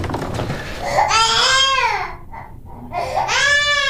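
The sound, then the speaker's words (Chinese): A baby cries loudly early in the morning at home: two long wailing cries, each rising and then falling in pitch, with a brief break between them. “你能不能别让他哭了，让人睡觉了。”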